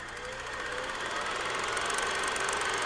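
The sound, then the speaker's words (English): A film projector runs with a steady mechanical whirr and fast, even clicking. The sound stays constant and fairly quiet throughout. “blow the dust off and get that projector out.”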